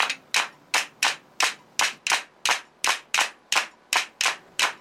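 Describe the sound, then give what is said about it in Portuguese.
Rhythmic hand clapping keeps time for a coco de praia dance in the Amaro Branco style: sharp, evenly spaced claps repeat steadily throughout, each bright and crisp, with no voices. “Vamos embora de coco de praia. Olha as palmas.”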